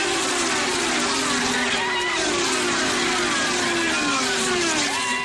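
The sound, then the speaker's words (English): Racing cars at Watkins Glen International in New York, their engines making a continuous, loud whine whose pitch shifts up and down as the cars draft and jostle. “Despite the cancellation of Indy and NASCAR auto races, one did take place at Watkins Glen International in New York. Going up the hill, and he's got a nice little gap on Roman with it already. Cars drafting, moving around.”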